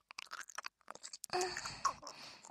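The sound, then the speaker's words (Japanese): Someone chews chewy tapioca pearls, quiet soft mouth sounds and a few moist, squishy bites that turn into a steadier mushy chewing noise in the second half. “タピオカってもちゃもちゃしてて飲み込むの大変なんですよね。”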